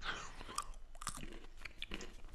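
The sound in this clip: Quiet, irregular crunching and chewing as a nut seasoned with lemon powder and lemon myrtle is bitten and eaten, with sharp little cracks scattered across a couple of seconds.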